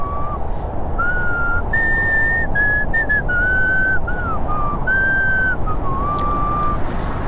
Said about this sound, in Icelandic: Og einhver staðar á hálfdimmum götunum var hugrökk sál á ferð og flautaði slitrótta útgáfu af víðkunnu rússnesku þjóðlagi.